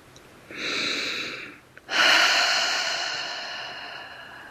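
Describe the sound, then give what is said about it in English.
A deep breath drawn in during a guided relaxation exercise, a steady breathy inhale of about a second, then after a short pause a longer, louder exhale that swells quickly and slowly fades, heard alone. “another wonderful deep breath comes in. And an exhale for pure letting go”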